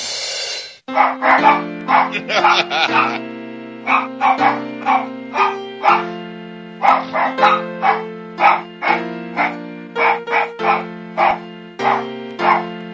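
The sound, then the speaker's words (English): Dogs barking in a rapid, rhythmic series of many sharp, loud barks. Sustained musical tones run underneath throughout. “Let me hear the barkathon again, just for a second, a little bit of it.”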